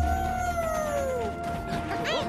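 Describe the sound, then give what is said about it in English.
A bus crashing through a road sign in a cartoon scene: a long whistling tone slides steadily downward, then a short, jumbled crash bursts out near the end over a constant background rumble. “They crash through the sign and are thrown out of the bus.”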